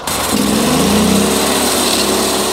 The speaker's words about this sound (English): Here on the farm, I watched him crank up his sawmill.